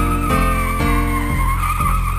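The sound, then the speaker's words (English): Tires of a hearse squealing: a loud, sustained, wavering screech that holds steady over a low pulse repeating about twice a second. “and a hearse with its wheels a-squealing.”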